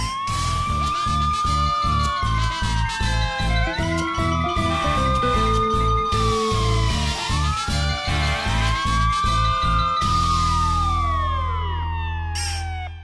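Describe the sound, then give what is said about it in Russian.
Two fire engines and an ambulance arrive at a residential building with sirens wailing. Several loud, overlapping tones sweep up and down over a steady low hum, continuous throughout. “Тут к дому, мигая и воя, подъехали две пожарные машины и одна скорая помощь.”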